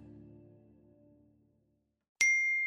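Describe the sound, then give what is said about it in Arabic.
A message notification alert sounds once, a bright ringing chime that holds steadily after a short silence that follows fading tonal music. “في رسالة جات لك يا رامي.”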